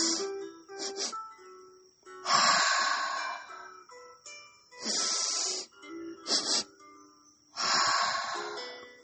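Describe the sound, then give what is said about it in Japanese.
Sniffing breaths drawn in through the nose, each followed by a long, audible exhale through the mouth, as part of a calming breathing exercise. The cycle repeats several times as loud, airy bursts separated by short pauses. “鼻で吸って、クンクンとするように吸って。そして、その後口から長く息を、はーと吐きます。もう一度やってみましょう。鼻から息を吸います。”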